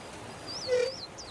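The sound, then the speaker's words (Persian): A dog gives a faint, short whine with a few thin, high squeaky yips around it, all brief and quiet. “نگاه کن، یه سگ.”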